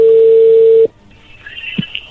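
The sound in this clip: A steady, loud telephone tone holds for under a second and then cuts off abruptly as a call connects. Faint line noise and a brief soft knock follow.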